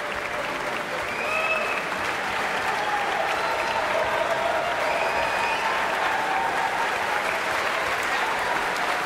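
Applause from an orchestra audience after a performance of Boléro, dense and steady for the whole stretch, a continuous even wash of clapping with no break.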